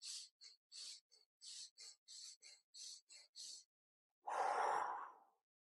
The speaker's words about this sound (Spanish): es inhalar y exhalar, pero exhalas muy poquito, inhalas más, exhalas muy poquito, inhalas más. Como que vas haciendo este movimiento hasta arriba.